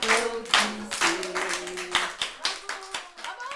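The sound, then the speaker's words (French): Steady rhythmic hand clapping at the close of a children's show, crisp claps roughly every half second under voices singing or chanting along. “Messieurs, mesdames, applaudissez”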